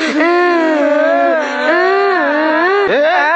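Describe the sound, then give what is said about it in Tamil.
Crying children give a loud, sustained wail whose pitch wobbles up and down, with a short catch and break just before the end. “ஏன்டா இப்ப அழுகுறீங்க?”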